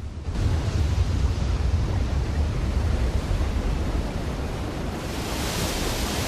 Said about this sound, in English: A relentless rolling wall of water breaching a sea defence, like a pan boiling over on the hob.